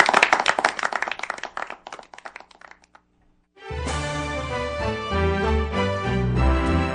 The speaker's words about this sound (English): They're going to keep applauding as long as you're out there. Well, now we've walked off the stage, Frank, and they're still applauding.